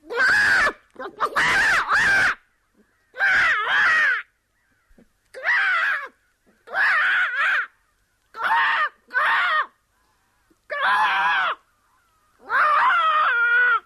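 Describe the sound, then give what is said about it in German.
An Icelandic female singer voices a dying great auk for a radio play, imitating the bird with a long series of loud, harsh, harmonic, crow-like squawks and wails separated by short pauses. “Ja, jetzt ist er tot. Nichts mehr zu machen. Tja. Der Riesenalk. Ja. Im Hörspiel Seance Vocibus Avium nochmal gestorben in der Interpretation einer isländischen Sängerin.”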